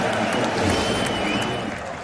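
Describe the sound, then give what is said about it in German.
Football crowd cheering and roaring after Fürth scores for a 1-0 lead, with fans in green and white celebrating; a dense, loud, steady wall of crowd noise that eases slightly toward the end. “Und deshalb jubelt das Publikum, zumindest die in Grün-Weiß. Denn sie sehen eine verdiente 1-0-Führung für Fürth.”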